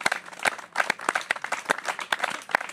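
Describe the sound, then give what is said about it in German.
Applause from an audience of about 2000 people at a live event, dense and steady clapping throughout. “Gerne nochmal an die Leute, an die beiden hier einen großen Applaus.”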